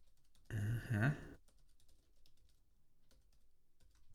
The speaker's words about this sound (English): Live checkout process. Putting in my credit card.